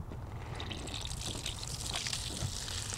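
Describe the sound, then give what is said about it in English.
Water runs from a hose hooked to industrial storage containers, a steady, even rush of splashing flow at moderate level with no pauses throughout. “when we want to water something, you just hook a hose up to it, and you can turn it on”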